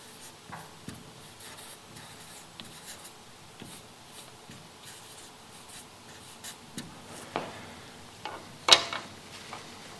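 Words are written on a board in a quiet scratching of many short strokes that goes on steadily, with a sharper tap near the end.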